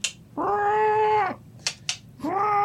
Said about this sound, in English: There's a cat in there. Yeah, it's a cat.